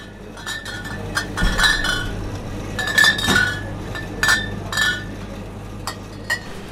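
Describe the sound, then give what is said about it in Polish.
Glass bottles clink against each other over and over on a bottling line. Many sharp, bright clinks sound at an irregular pace over a steady low mechanical hum, with no voices. “Najgłośniejszy proces to jest na rozlewie, a szczególnie na rozlewie butelkowym, gdzie te butelki non stop tam stukają u siebie. To jest taki właśnie dźwięk”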